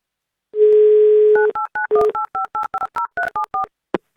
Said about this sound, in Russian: Ну давайте позвоним в Ростовскую область Роману и все у него спросим.